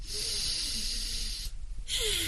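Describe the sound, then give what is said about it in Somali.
A slow, deep calming breath let out with a steady blowing hiss, like blowing out a candle. A long breathy rush is followed by a brief quieter pause, then another strong airy blow, with faint low tones underneath. “waxaan qaataa neef dheer sida ina carabsanayo kadib waxaan dareemaa degganaasho ka dibna waxaan u soo daayaa neefta sida inaan shabac diminayoo kale”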